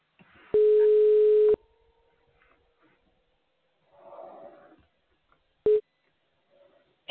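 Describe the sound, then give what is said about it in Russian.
Outgoing-call ringback tone on a telephone line: one steady, mid-pitched tone lasting about a second, then a long quiet gap with faint noise, then the tone returns briefly near the end. “Начинаем звонок покупателю.”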